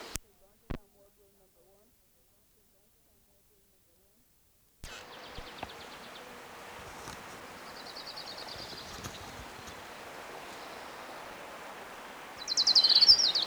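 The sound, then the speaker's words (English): An orange-crowned warbler sings short, high, thin trills, faint over a steady background hiss. A brighter, louder burst of song comes near the end, and a few soft clicks precede it. “There's Orange Crown Warbler number one.”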